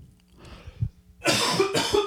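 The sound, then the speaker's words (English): Two harsh, loud coughs in quick succession, following a quiet stretch with faint throat noises. “coughing on my own sadness.”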